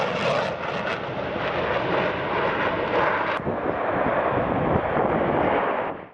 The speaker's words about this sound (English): Incredible aerobatics maneuvers and advanced aircraft flyovers dazzled the audience.